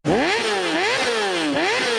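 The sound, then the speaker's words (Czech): A racing buggy's engine revs loudly and continuously, its pitch repeatedly sagging and climbing in surges with no talk over it. “Nejlepší dárek pro chlapa je jízda v závodní bugině.”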